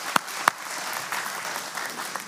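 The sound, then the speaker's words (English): Applause from an audience for the actors and actresses after a performance: two sharp claps, then soft, steady clapping that stays faint throughout. “can we give all of our actors and actresses a fine round of applause?”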